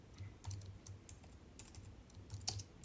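Quiet keyboard typing as a discount coupon code is entered on a computer, many soft, irregular key taps in short bursts with one slightly louder click near the end.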